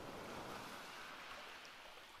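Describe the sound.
Ocean waves wash in a soft, continuous surf hiss that stays faint and even, with no voices.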